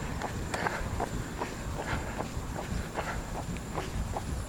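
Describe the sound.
Running footsteps pound past a pizza parlor in a steady, quick rhythm of many even footfalls over a constant background hiss.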